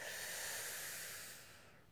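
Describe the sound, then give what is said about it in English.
A deep breath taken during a guided relaxation: a long, soft, airy hiss that holds steady, then tapers away over about two seconds. “Take a deep breath.”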